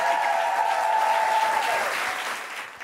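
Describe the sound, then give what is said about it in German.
Dense, sustained applause from a comedy show audience for a comedian. The clapping holds steady and slowly thins toward the end, with a clear high tone over the first part. “Macht nochmal Lärm für Julia Brandner!”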